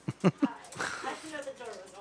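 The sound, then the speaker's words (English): A dog gives three short, sharp barks in quick succession, then a person starts talking over faint background noise. “Dog barking doesn't make me want to drink, thankfully.”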